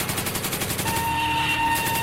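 Gunfire on a shooting range: a rapid, loud, steady burst of automatic shots rattling without a break through the whole clip.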